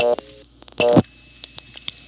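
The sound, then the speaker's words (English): Telephone touch-tone dialing: a few short tone bursts separated by gaps, one held slightly longer than the others, followed by fainter brief blips. “However, I can dial the exact same thing, and 2-2.”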